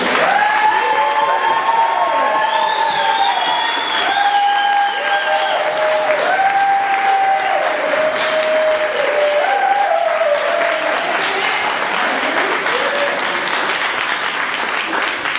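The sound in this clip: Audience applause and cheering at a House of Worship service welcoming a pastor: a dense, steady roar of clapping that holds loud throughout, with crowd voices and cheers mixed in.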